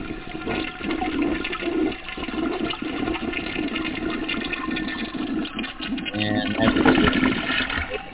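A toilet flushing, with a steady, loud rush of swirling water throughout that swells briefly toward the end.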